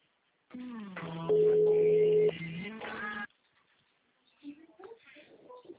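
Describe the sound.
An electronic mobile phone ringtone plays steady synthetic tones for about three seconds, loudest in the middle stretch, then cuts off, leaving a few faint, brief sounds afterward.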